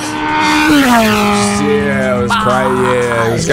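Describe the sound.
Engine of a Ferrari 12 Cilindri Manuale on a test drive, a loud sustained note with strong harmonics. Its pitch dips early, then shifts a couple of times as the engine note changes.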